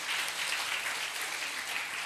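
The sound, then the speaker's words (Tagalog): A church audience applauds the Lord with steady, even clapping, soft and continuous throughout without a break. “Palakpakan natin ang ating Panginoon.”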